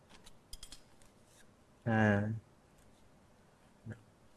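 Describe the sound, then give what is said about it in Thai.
Scissors snip through excess pipe insulation during an air-conditioner line-set installation at a condensing unit, giving a few faint, short cuts with a louder brief tonal sound in the middle. “ตัดในส่วนของอินซูเลชันที่ยาวเกินไป”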